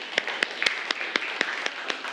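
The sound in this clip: Children clap for a classmate in a class. The sharp, fairly faint claps fall in a steady, even rhythm of many separate hits.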